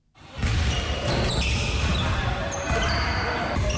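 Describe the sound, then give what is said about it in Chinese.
Basketball dribbling and shooting in an indoor community gym: a dense, steady run of ball bounces and court noise that holds loud throughout, with talk over it. “运球突破，起跳投篮，在江西南昌青山湖区社区体育馆内，市民们尽享运动乐趣。”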